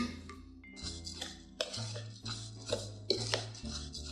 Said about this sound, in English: what I'm mainly looking for is blending all of these ingredients together just before I top them off with the olive oil.